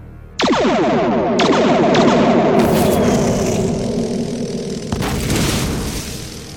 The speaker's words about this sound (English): In that case, you leave me no option. Fire the torpedoes.